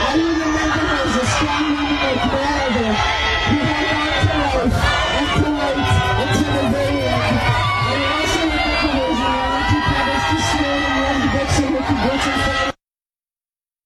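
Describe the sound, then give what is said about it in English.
A large crowd at a candlelight vigil shouts and cheers, many overlapping voices forming a loud, continuous roar with rhythmic chant-like surges that hold steady throughout before cutting off abruptly. “That's the sound of a candlelight vigil, the solemn prayer service on behalf of the dead and the still mourning”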